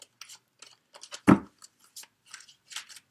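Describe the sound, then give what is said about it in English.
Tarot cards being drawn and handled: a scattered series of short, soft papery snaps and flicks, with one louder slap near the middle, and no talk. “Let's get some more cards and see.”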